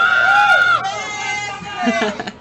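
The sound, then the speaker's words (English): Festival crowd at a Midsummer event cheering wildly, with high whooping screams riding over dense crowd noise, easing slightly after the first second, then swelling again near the end. “Yes! The crowd go wild.”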